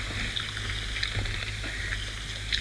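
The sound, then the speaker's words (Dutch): Hands are washed under running water, a steady, even rush of splashing that continues unbroken from start to finish. “Ik ga wel even mijn handen wassen, zeg.”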